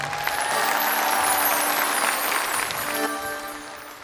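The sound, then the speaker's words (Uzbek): An audience applauds a guest singer at a duet performance, with dense, steady clapping for about four seconds that eases slightly toward the end. “Bir qarsak bo'lsin mehmonga.”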